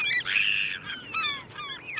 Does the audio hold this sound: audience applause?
no